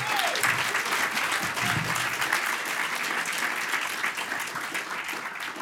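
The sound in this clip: Warm applause from an audience welcoming a guest speaker, a dense and even patter of many clapping hands that holds steady without pause from start to finish.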